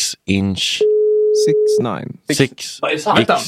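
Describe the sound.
A telephone ringing tone sounds while someone places a call. A single steady, mid-pitched tone lasting about a second sits between stretches of people talking, with voices before and after it.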